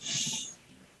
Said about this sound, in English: And another deep breath in